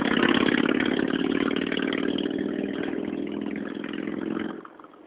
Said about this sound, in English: Noisy bike.